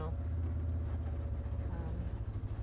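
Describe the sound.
A vehicle engine idles with a steady, low rumbling drone that holds at an even level throughout, with no break in the sound.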